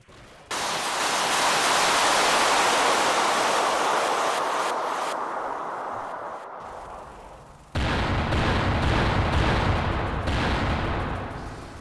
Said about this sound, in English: Two other squires were loading the last of the missiles into the battery, which quickly swiveled and fired into the sky.